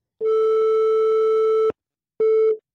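A telephone ringback tone heard while placing a call: a steady, loud mid-pitched tone holds for about a second and a half, stops briefly, then sounds again before cutting off.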